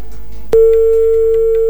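A phone line's busy tone after a dropped call: a sharp click, then a steady mid-pitched electronic tone that holds loud and unbroken to the end.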